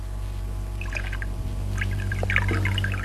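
Water being poured, a soft splashing trickle in short bursts over a steady low hum, faint overall.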